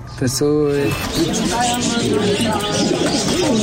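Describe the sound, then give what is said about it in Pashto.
Pigeons cooing at a bird market in Kabul, soft repeated coos mixed with steady background bustle and people talking. “د کافروشی کوڅه په کابل کې د مرغانو د پیرو پلور سیمه ده.”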